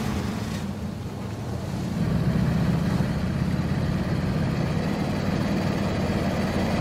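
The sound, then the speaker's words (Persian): A car engine running at idle, a steady low rumble and drone that grows slightly louder after the first couple of seconds and then holds even. “ماشین کوفتی رو روشن کن”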